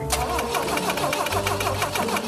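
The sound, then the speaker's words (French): A BMW car engine cranks but fails to start just after its ignition was adjusted. The churning starter noise is loud and continuous, with rapid repeating pulses throughout, and no voices are heard. “il faut absolument que la BM démarre au quart de tour. Sauf qu'à CarSOS, tout ne marche pas toujours comme prévu. T'as réglé l'allumage? Ouais. Essaie encore?”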